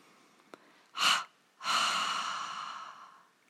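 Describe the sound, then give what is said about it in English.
A double exhalation through the mouth: one short, airy breath out, a brief pause, then a longer breath out that slowly fades. Soft and alone, with no talk. “we release the tension with a double exhalation through the mouth. And that's a short exhalation followed by a long exhalation. So it sounds like this.”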